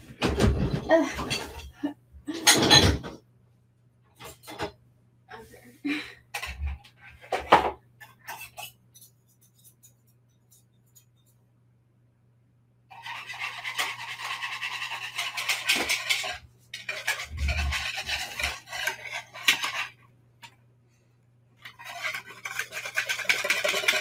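Metal kitchen utensils clatter as a whisk is grabbed while making pancakes: a few sharp knocks and rattles, a quiet pause, then longer stretches of steady scraping and rustling.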